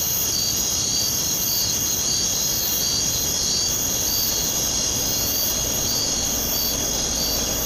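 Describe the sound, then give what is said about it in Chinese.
Cicadas droning at noon in midsummer: a dense, continuous high-pitched buzz that holds an even, loud level throughout without pauses. “聒噪的蝉鸣和正午的阳光让睡意不断袭来。”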